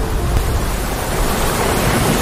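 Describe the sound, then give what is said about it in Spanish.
A breeze rushes through trees as a loud, steady wash of broad noise with no breaks or distinct events, and no voices. “Escucha la brisa pasando por los árboles.”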